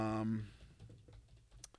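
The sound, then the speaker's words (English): Typing on a computer keyboard, a quick run of light, faint key clicks following a brief voice at the start. “Just type in Ultra Mega number one.”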